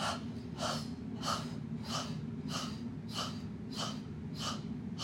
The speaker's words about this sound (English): Exhales only. Inhales happen automatically. It's like a bellows.